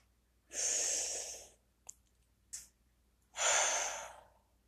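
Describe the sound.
Deep, slow breathing during a guided relaxation exercise: two long, airy breaths separated by a pause of about two seconds, with two faint short clicks in the gap.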